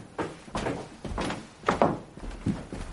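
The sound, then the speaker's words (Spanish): Footsteps climb a staircase as several soft, dull thuds spaced at uneven intervals, each a short muffled knock, quiet throughout and with no talk. “Suben unas escaleras.”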